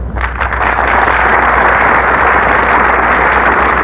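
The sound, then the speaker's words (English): A studio audience applauds a popular Hollywood star with dense, steady clapping that stays loud and even throughout, with no voices over it. “And our studio audience is giving them a big hand, for there's no more popular star in all of Hollywood than Gene Hersholt.”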